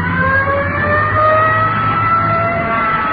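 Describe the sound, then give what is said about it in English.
A police car siren wails in steady sustained tones as the car accelerates away, with a continuous low engine rumble beneath, loud throughout. “Hit the light, Antoine. Let's roll.”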